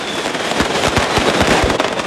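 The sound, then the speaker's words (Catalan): Fireworks rockets explode at a night gunpowder festival in Paterna: a loud, dense, continuous barrage of booming bursts and sharp crackles with no pause, and no voices. “Més de 70.000 coets es van llançar davant d'un públic que va gaudir d'una nit on la pólvora és la gran protagonista.”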